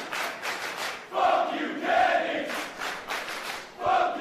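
A wrestling crowd chants in unison at a pro wrestling show. The rhythmic chant swells in several loud, repeated bursts, with the crowd's noise dipping between them.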